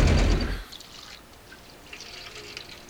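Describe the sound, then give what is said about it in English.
Water from a water dispenser used to rinse an eggnog dish: a loud gushing pour for about half a second, then a much quieter trickle with a few faint drips. “Rinsing out his eggnog dish with the fucking water dispenser.”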